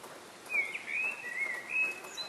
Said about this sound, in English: This is the sound of a bird's dawn chorus.